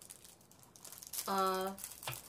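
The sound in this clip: Foil wrapper of a chocolate coin crinkling and crackling as it is cut open, a bright papery rustle that swells midway alongside a voice.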